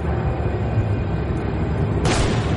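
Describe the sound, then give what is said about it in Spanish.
A single sharp gunshot sounds in a scene of the crime thriller Fargo. A low, rumbling background runs steadily beneath, then one abrupt bright blast hits near the end and fades quickly. “Le dispara.”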